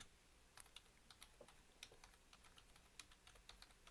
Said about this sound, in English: Sorry, I type really bad.